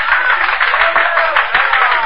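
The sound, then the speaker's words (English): Audience applause: dense, continuous clapping that stays fairly even and loud for about two seconds, with no pauses. “Then applause drew me from my unhappy reverie.”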